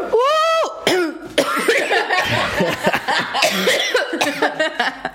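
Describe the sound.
Coughing in a few harsh, dry bursts mixed with throaty voiced sounds and brief chuckling, loud and close-sounding, with a short hummed vocal note at the start.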